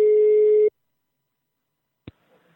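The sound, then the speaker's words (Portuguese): A telephone call tone sounds while a number is dialled: one steady, loud electronic tone lasting well under a second, then silence broken by a single brief click. “É o seguinte, eu vou ligar agora pra Elzita. Liga lá. Vou ligar lá, ela é conhecida como Bizuca.”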